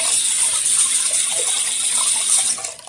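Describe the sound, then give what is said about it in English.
Tap water running into a sink while someone washes their hands, a loud, steady gushing hiss that tapers off at the very end as the flow stops. “I'm going to run some water real quick. Washing my hands.”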